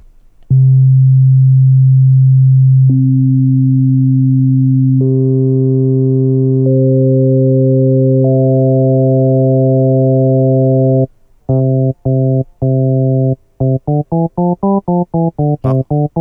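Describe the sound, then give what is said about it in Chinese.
Synthesizer tones, each a single pure frequency, are stacked one by one into a single timbre. Five steady layers enter in turn into a loud, continuous chord, which then breaks into choppy rhythmic pulses that quicken toward the end. “用单一的频率，然后一个一个叠加的过程中，然后生产出一个音色来。”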